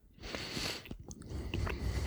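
Biting and chewing a piece of very soft Gouda cheese: a few faint, moist clicking and smacking mouth sounds, uneven in rhythm.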